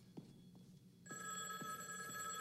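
An old telephone rings in a film scene: a shrill metallic bell trill starts abruptly partway through and continues steadily to the end over a low background hum.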